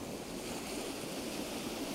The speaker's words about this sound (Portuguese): Você só ouve o som de pequenas formações de ondas